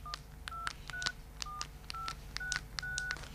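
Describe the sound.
Telephone keypad tones sound as a number is dialed: a quick, evenly spaced series of short, clear beeps, each a steady two-note tone, heard alone.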